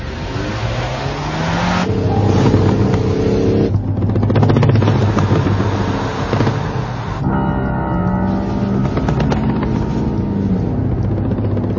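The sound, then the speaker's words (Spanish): A motorcycle engine drones as the bike turns into a city street, loud and continuous with a shifting tone throughout and no voices. “La moto gira en una calle.”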